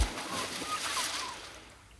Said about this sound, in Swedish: dyker nu ner för att spana. Plums i böljan, se upp!